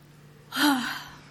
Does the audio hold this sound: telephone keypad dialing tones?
no